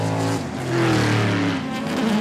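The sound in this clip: Loud race car engine with a steady, droning roar carrying strong low harmonics, swelling slightly in level partway through and holding loud to the end.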